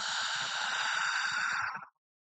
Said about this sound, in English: Big breath in. Really fill the lungs and exhale.